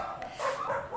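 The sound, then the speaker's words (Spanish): Dogs fighting in the street, a short continuous run of whining yelps and barks lasting about a second, fairly faint against background hiss. “Mientras los perros están haciendo lucha en la calle”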